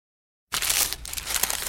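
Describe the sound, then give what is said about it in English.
Crinkling paper wrapper as a McDonald's steak, egg and cheese bagel is unwrapped: after a brief silence, a steady, fairly loud, hissy rustle and crackle runs continuously for just over a second with no voices. “For all you foodies out there, I'm unwrapping a McDonald's steak, egg, and cheese bagel.”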